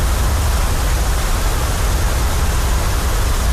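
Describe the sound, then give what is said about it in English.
Brown noise from a white noise sound machine: a steady, unbroken rushing hiss weighted heavily toward the bass, loud and even from start to finish with no talk. “I found brown noise.”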